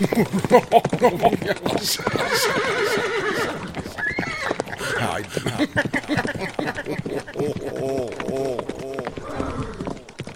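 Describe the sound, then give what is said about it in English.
A horse whinnies loudly over a steady, rapid drumming of galloping hooves, and a second, wavering neigh follows near the end while the hoofbeats keep going. “the atheist leader proclaimed as he galloped off on his snorting evil steed, maniacally laughing into the dark night.”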